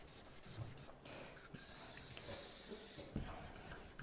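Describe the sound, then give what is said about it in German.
Faint scratching and rubbing as a small sketch is drawn on paper, a continuous soft rasp with a few brief, slightly louder strokes. “Also, wir machen mal eine kleine Skizze. Wir machen mal eine Skizze.”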